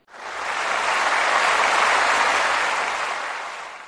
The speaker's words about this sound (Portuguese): Eu gostaria de pedir uma salva de palmas pra essa moça que tá dando risada aqui no, atrás de mim.